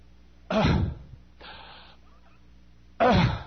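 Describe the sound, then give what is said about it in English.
A voice imitates the laboured breathing of a two-year-old with severe pneumonia in an oxygen tent: two loud, harsh, rasping gasps with a softer, thinner breath between them, and short silences separating each. “And she had it so bad she'd breathe like this.”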